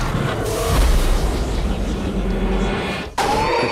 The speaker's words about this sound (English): Foe Chaos Aqua used Chaos Blast.